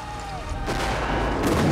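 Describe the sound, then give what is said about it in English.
Cannon fire on a Civil War battlefield at Antietam Creek, Maryland, in 1862: two heavy booming blasts, the second stronger, rise out of a continuous rumbling din. “The Unionist troops advance across the field, holding their muskets out in front of them, while on the other side of the field, Confederate soldiers fire cannons in their direction. The blasts rip through the earth and the surrounding trees,”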